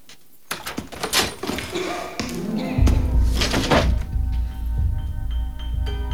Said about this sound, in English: opens the door, then quickly closes it as a shadowy figure walks past in the corridor